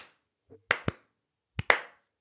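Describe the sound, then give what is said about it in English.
A few sharp hand claps, spaced slowly in two quick pairs with a pause between, like a mock slow clap. Each clap is crisp and fairly loud, heard alone with no talk over it. “Well played, sir. I think that almost needs to be a slow clap.”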